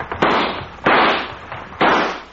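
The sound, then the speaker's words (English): Gunshots fired to shoot out a lamp: three loud, sharp cracking bursts at fairly even intervals, each trailing off in a harsh noisy decay, with no voices. “Come on, shoot up the lamp.”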